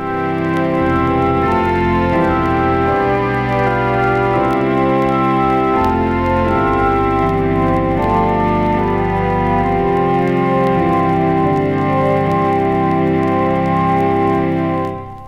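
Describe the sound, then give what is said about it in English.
An electronic organ set to a traditional church organ voice plays full, sustained chords that shift steadily from one to the next, loud and rich with deep bass, ending with a short fade. “Well then, here is the sound of the traditional church organ.”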